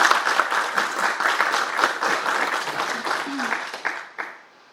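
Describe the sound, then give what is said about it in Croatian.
Warm applause welcomes a visiting author and historian at an evening event in Tomislavgrad: dense, steady clapping from an audience that holds for about four seconds, then quickly tapers off. “Ona je večeras došla u Tomislavgrad, pa vas molim da je pozdravite jednim toplim pljeskom dobrodošlice.”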